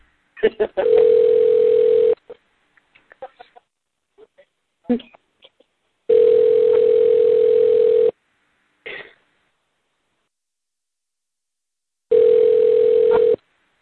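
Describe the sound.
A telephone call's ringing tone, heard as three steady two-second electronic tones spaced evenly apart, with short coughs and brief vocal sounds in the gaps between rings.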